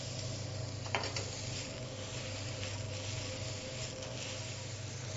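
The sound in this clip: Onion and chanterelle mushrooms fry in a pan for a sauce, giving a soft, steady sizzle throughout, with a brief clatter of stirring near the start.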